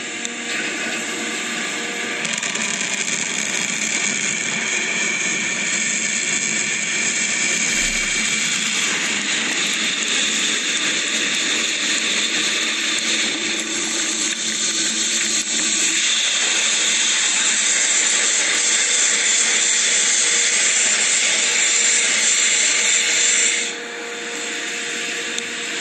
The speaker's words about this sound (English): That was SpaceX Falcon 9 first stage booster landing on the drone ship May 4th.